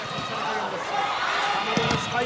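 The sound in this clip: A volleyball serve in a match: a sharp smack of the ball rising out of steady crowd noise while a commentator talks.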